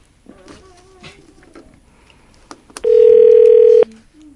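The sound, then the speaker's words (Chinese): Telephone tone after a hung-up call, one loud, steady, mid-pitched beep lasting about a second, preceded by faint low sounds. “那就 他是把我们电话挂掉了吗？”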